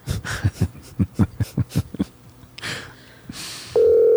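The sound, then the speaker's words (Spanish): A telephone call is dialed: a quick, even run of many key presses, a short pause with a faint rustle, then a loud steady tone that starts abruptly and holds to the end. “Déjame llamarla. La voy a llamar en caliente.”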